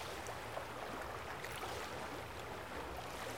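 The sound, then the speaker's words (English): Sea waves washing on the shore, a steady, continuous rushing hiss with no distinct breaks, even in loudness throughout. “It's peaceful here. On the shore. The motion of the sea wave is hypnotizing.”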